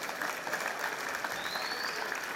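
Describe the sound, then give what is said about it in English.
An audience applauds in a dense, steady wash of many hands clapping that holds at an even level for the whole stretch, without a clear rise or fall. “Wanna clap if you celebrate success.”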